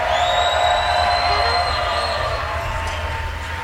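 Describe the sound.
Crowd cheering in the WWOZ Jazz Tent at a live jazz event, a loud, sustained roar of voices with shrill whistles riding on top, easing off slightly toward the end.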